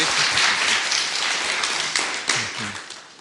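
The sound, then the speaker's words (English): Applause from an audience at a religious gathering welcoming a guest speaker: dense, steady clapping that continues throughout and eases slightly toward the end. “So what if you put your hands together and welcome our dear brother Jules.”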